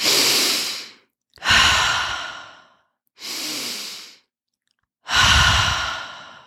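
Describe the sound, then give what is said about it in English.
Forceful activating breathwork: four loud, rushing breaths drawn in and pushed out through the mouth, each lasting about a second with short silent gaps between them and no talking. “we're going to do a nice activating breath pattern for this.”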